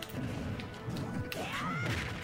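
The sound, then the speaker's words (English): A punch landing in Super Smash Bros. Ultimate, a sharp, fairly faint impact followed by a quick sweeping tone. “Oh, I love that punch, too. That's a good one.”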